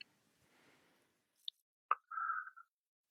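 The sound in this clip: Red cabbage juice drips into water in a few faint, wet plops and a soft squishy trickle, with near silence between them.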